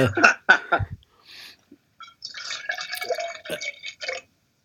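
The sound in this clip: A drink is poured into a glass, with splashy, dripping liquid in short bursts at first, then a longer, uneven stretch of trickling fill before it stops.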